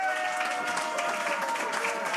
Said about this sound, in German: Und in diesem Sinne darf ich mal Dankeschön sagen für den tollen Applaus, fürs Mitmachen.